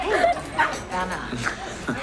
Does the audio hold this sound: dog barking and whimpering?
yes